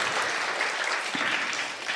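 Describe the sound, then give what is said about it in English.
Audience applause for women standing up during a talk: a full, steady patter of many hands clapping together, lasting the whole clip at a fairly constant level. “Now, applaud these women for standing”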